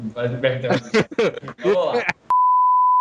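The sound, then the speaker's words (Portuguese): A cell phone ringtone sounds as a single steady, pure electronic beep that holds at one pitch for under a second, right after a stretch of people talking. “Isso é um toque de celular de macho. É, é, é quando meu pai liga pra mim só toca isso”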